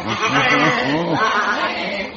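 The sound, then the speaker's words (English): A sheep bleats on a city street in Athens, giving a run of wavering, nasal cries that rise and fall in pitch over a steady bed of background noise. “It's, not often you see sheep in the streets of Athens. This one's, curiously affectionate.”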